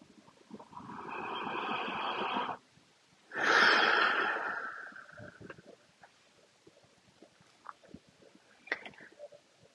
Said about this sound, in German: Noch ein tiefer Atemzug, weil es so schön ist.